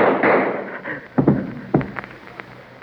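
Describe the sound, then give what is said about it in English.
Gunshot during a tense holdup over money: a few sharp, hard bangs with quick decays stand out over a low background rumble. “But while you're running, keep remembering who you just shot.”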